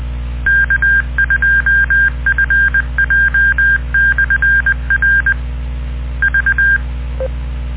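Keypad beeps as a frequency is dialed into a two-way radio: a long run of short, same-pitched tones in quick clusters, a brief pause, one more short cluster, then a single lower beep.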